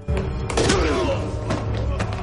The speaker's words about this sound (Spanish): también se deshace de él a golpes cae al suelo. Otra patada.